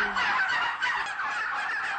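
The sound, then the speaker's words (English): Bronze turkeys in a shed, premium-priced birds labelled free-range but kept mostly indoors, gobbling and calling as a flock: a steady, dense chatter of overlapping high-pitched calls at moderate volume with no pauses. “These are also premium-priced bronze turkeys. Because they have access to a paddock, they're labelled free-range, but they spend most of their life in here.”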